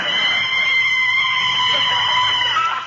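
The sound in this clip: Tyres screech as a car brakes hard to a sudden stop in a radio drama sound effect, a loud, steady high-pitched squeal that holds unbroken for the whole moment.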